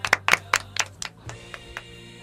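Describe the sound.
Sparse clapping for a contest winner comes from a few people: a handful of sharp, faint claps that thin out and grow quieter, over a low, steady hum.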